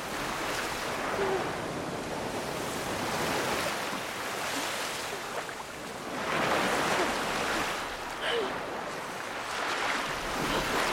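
Waves wash up onto a sandy beach as surf rushes in continuously. The broad hiss swells and ebbs, with a few stronger surges breaking through the steady wash of water.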